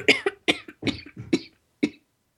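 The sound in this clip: Harsh coughing comes in a quick run of rough bursts, then one last cough after a short pause. Loud and alone, with no talking.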